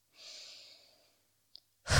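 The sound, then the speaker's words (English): A short, forceful exhale through the mouth during a breathing exercise: one breathy rush of air that quickly fades. A brief click follows, then another loud burst of breath starts at the very end. “Now inhale. And do short exhale, letting all of the air out at once. Again. Again.”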